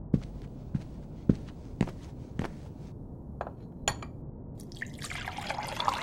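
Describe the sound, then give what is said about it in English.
Liquid drips and splashes while a drink is mixed: a few sharp, separate drops at first, then a softer, continuous trickle of pouring toward the end. “Mix me a drink. Sure.”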